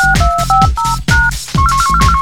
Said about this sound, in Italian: Comporre il prefisso teleselettivo dell'abbonato seguito dal numero di telefono.